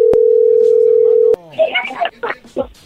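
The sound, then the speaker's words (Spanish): A telephone dial tone sounds while a call is being redialed, a loud steady single-pitch hum that cuts off abruptly, after which people talk. “Sí, ya colgó, pero ahí se está marcando otra vez.”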